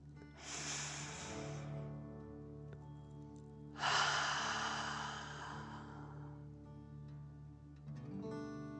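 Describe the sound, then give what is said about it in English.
Deep, slow dragon-breath breathing in a guided meditation: two long, airy breaths, the second fuller and louder, over a soft, sustained tonal drone that continues through the quiet gaps. “Enjoy the gently flowing stream of energy and take another deep dragon breath. Fill up your chest and belly, in and out.”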